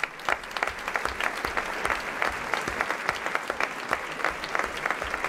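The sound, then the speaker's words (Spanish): An audience applauds the actors after a staged dramatic reading of a short story adaptation. Many hands clap in a continuous, even wash at moderate loudness, with a few sharper claps standing out and no speech over it. “Y el aplauso para nuestros actores.”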